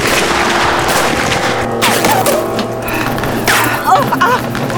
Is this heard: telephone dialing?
no